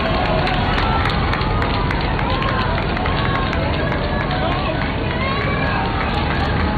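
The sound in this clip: Dense crowd noise fills a street in Spain during the Pope's visit, a continuous loud roar of many overlapping voices with scattered shouts that stays steady throughout.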